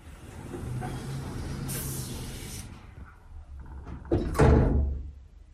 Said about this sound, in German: Tür öffnet. Tür schließt.